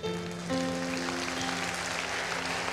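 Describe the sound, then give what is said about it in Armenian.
A church audience applauds in praise during a service, a continuous wash of clapping over sustained, steady musical tones. “Եկեք բարձր ծափարենք Տիրոջը։”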